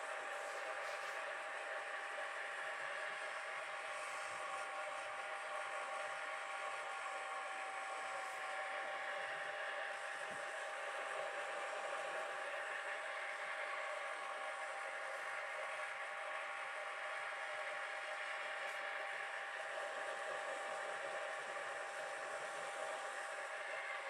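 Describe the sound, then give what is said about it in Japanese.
A hair dryer blows lukewarm air while drying hair and scalp, making a quiet, continuous whooshing whir with a steady motor tone throughout and no pauses. “今はぬるめの風で乾かしていますが、”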